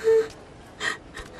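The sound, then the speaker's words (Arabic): Gasping, laboured breathing from a girl struggling to breathe, a few short, strained gasps, the first partly voiced and loudest, the last faint. “أحضر قارورة الأكسجين لو سمحت. ما بها؟ عندها مشكلة في التنفس.”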